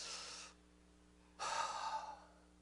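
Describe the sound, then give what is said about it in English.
Deep breaths of air: a short, airy breath, a pause, then a longer and louder breath with a slight tonal edge. The sounds are soft and stand alone, with no talk. “everybody take a deep breath”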